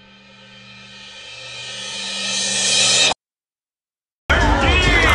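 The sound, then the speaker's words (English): Crowd noise fills a loud robotics tournament. It swells steadily for about three seconds, cuts out abruptly, then returns at full loudness with voices and shouts rising out of the din. “I am at a robotics tournament right now. I had no idea it would be louder than a water polo game.”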